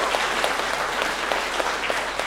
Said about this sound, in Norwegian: Vi gjør det skikkelig applaus.